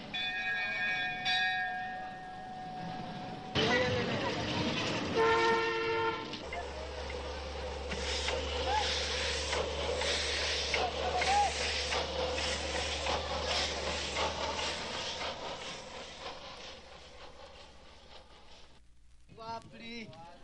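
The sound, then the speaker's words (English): Railway station platform ambience with trains: a few tonal horn or bell notes at the start, then a steady low engine rumble beneath a dense wash of crowd noise and background voices, fading toward the end. “The railway station platform sounds like this.”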